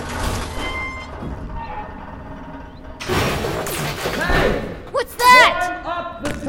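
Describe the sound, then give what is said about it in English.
Crashing metal as the lattice housing of a rusted radio tower is smashed down: a burst of clattering impact noise in the middle, then excited voices shouting. “He smashed down some kind of metal lattice for us to climb!”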